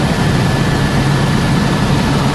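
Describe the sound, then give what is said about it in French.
Propeller aircraft in flight over countryside, a loud, steady, unbroken engine and propeller drone that stays even in level and pitch throughout, with no voices. “Au-dessus, vous entendez sans doute le bruit d'enfer que font les hélices.”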